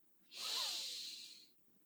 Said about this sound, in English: I want you to take in a deep breath